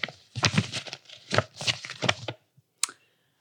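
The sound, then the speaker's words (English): A folded paper index card being opened gives a run of dry, crackly rustling bursts, then one sharp papery snap, followed by quiet. “You can pretend you're opening an envelope, but it's just a folded index card.”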